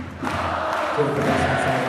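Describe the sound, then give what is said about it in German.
Dense crowd noise from basketball fans standing in the arena late in a game, clapping and singing, a steady full roar that swells after the first moment and holds loud for the rest. “Und das weiß jetzt hier auch die ganze Halle. Die Fans stehen, die Fans klatschen”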